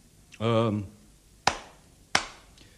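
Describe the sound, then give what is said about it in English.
Two sharp hand claps, evenly spaced and crisp, following a short voiced sound at the start, with quiet gaps between them. “I am clapping.”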